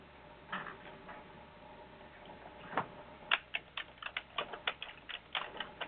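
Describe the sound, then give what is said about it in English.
Typing on a computer keyboard while entering a search into software: many quick, crisp key clicks in an irregular rhythm, sparse at first and then coming in a dense, rapid burst. “You don't have to type the whole word in.”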